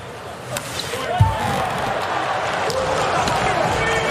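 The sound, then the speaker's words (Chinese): Player Waz serves in a volleyball match, one sharp thud of the ball under a commentator's voice and steady crowd noise from the arena. “瓦兹发球，”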